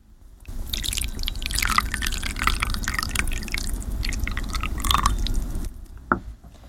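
Water poured from one tea bowl into another makes a continuous splashing, gurgling trickle for about five seconds. It stops with a single short drip at the end.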